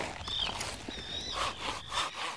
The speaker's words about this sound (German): Das geht viel leichter zu sägen als das Getrocknete. Ein bisschen gleitet die Säge jetzt hier wie durch Butter.